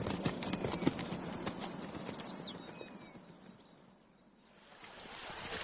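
Horses gallop in a chase with rapid, rhythmic hoofbeats under a rushing wash of noise. The sound thins toward the middle, then swells again.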